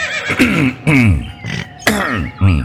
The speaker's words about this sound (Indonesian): Memeh ngomong narik napas heula tuluy ngadehem.